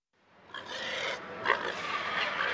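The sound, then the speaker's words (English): Pigs grunt and squeal in the swine section of a big open barn at the Nebraska State Fair. The noisy animal chorus rises from a soft start and then holds steady, loud and continuous. “As you can probably tell, I'm in the swine section of a big open barn here at the Nebraska State Fair.”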